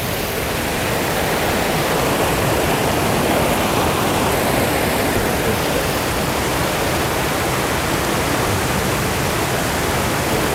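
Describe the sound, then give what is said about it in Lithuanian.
A waterfall on a river roars in a continuous, full rushing hiss that stays loud and even throughout, with no voices and no break in the flow. “Čia labai gerai meditatyviai būt prie šito teka, tas krioklio toks visą laiką.”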